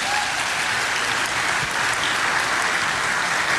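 A church audience applauds to welcome first-time visitors at a service. The clapping is even and continuous, a steady wash of many hands from start to finish.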